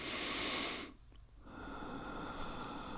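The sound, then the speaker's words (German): A deep breath at the close of a guided relaxation: a strong breathy rush that cuts off abruptly, a short pause, then a long, softer breathy flow continuing to the end. “Und dann öffnen Sie ganz langsam Ihre Augen und atmen Sie ganz tief durch,”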